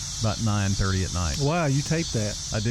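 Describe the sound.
Cicadas at night at a house, making a steady high buzzing drone that runs under people talking throughout.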